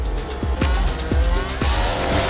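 A race car's tires squeal as it nearly leaves the track in a racing video game. The engine snarl is loud and continuous, with several quick falling pitch drops over the squeal.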